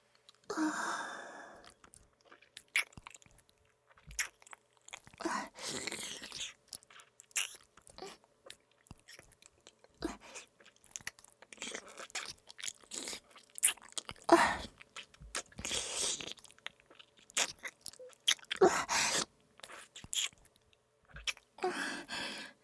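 Salty food is bitten and chewed: many crisp crunches and wet chews come in irregular bursts, separated by soft breaths and short pauses.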